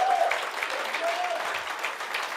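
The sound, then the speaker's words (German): Church audience applauding during a service, a soft, even patter of many hands that fills the whole short stretch without pause. “Komm, großartigen Applaus für Kajon mal.”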